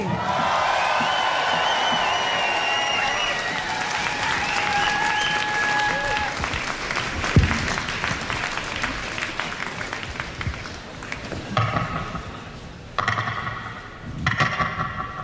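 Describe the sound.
Loud, sustained applause and cheering from a concert crowd welcoming singer Roisin Murphy on stage in Bristol, the clapping dense and steady throughout before thinning into a few separate bursts near the end.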